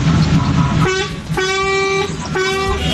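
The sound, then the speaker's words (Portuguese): Car horns honk on a morning street, with three long sustained horn blasts sounding one after another over a constant rumble of traffic. “É, cara, os caras tá buzinando, né?”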